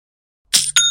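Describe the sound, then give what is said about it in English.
Shopify's sale notification sounds as two quick, bright metallic hits, the second leaving a clear ringing chime that holds to the end, loud against silence. “You hear that sound? You should know that sound by now, Young and Profiters, but in case you don't, that's the sound of another sale on Shopify and the moment another business dream becomes a reality.”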